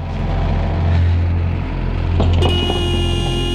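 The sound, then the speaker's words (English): A car pulling away, its engine a steady low rumble that swells gently, joined in the last second or so by a sustained higher tone. “She watches the car leave with concern.”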